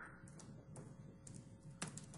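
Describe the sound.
Faint typing on a computer keyboard while entering CSS selectors in design software: a handful of soft, irregularly spaced key clicks over a quiet background.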